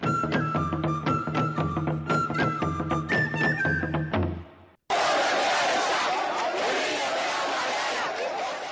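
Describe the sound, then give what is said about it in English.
Thousands of protesters fill the streets of Khartoum, demanding the Sudanese president step down: a dense, steady roar of shouting voices, preceded by a short passage of music that cuts off abruptly. “That is the sound of thousands of protesters on the streets of Khartoum today demanding that Sudan President Omar el-Bashir step down.”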